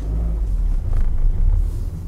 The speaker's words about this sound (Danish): Ja, så kører jeg bare efter.